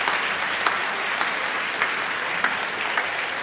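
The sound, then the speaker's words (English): A church audience at an Easter gospel service applauds the choir, giving a steady, dense wash of clapping that stays even in loudness from start to finish. “And church, shall we put our hands one more time together for the choir who sang so beautifully and led us in worship.”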